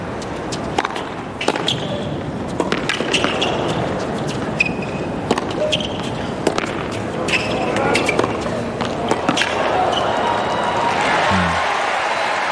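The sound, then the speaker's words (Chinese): Sharp tennis ball strikes ring out on serve and return in a professional women's match on a sunken court, with serves reaching 185 km/h. Many crisp, percussive racket hits repeat under continuous commentary, with crowd noise behind. “这球凯斯的接发球啊，刚好是借力打力的一个回发，赌对了方向。”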